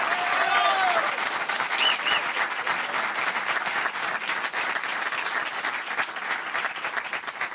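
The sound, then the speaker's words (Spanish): Audience applause at a stand-up comedy show about therapy: dense, steady clapping that runs loud and even from start to finish, with a faint crowd murmur underneath. “Fuerte el aplauso, señor.”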